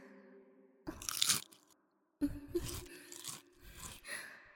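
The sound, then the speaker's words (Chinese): Crisp crunching of a potato chip being bitten, two loud crackling bursts followed by softer chewing crunches, with a brief breathy sound between bites. “那好，先来一片薯片。”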